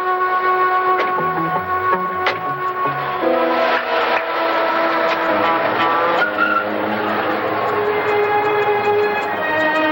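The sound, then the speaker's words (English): A car engine pulls away and keeps running loudly for the whole stretch, its tone rising and shifting in pitch as it drives off. “Leaving the two patrolmen, Dan and his partner Charlie get into their car.”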